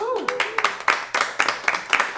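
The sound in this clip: Audience clapping and a cheer welcoming the chef at a dinner show: a brief whooping voice opens, followed by a small group's quick, fairly regular claps that continue throughout.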